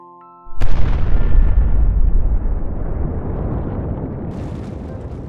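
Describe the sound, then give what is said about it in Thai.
A small volcano's eruption sound effect: faint tones give way to one sudden, loud boom that rolls into a long, heavy roaring rumble, slowly fading, with a hissing layer rising near the end. “และภูเขาไฟเล็กก็ปะทุตามวัฏจักรต่อไป”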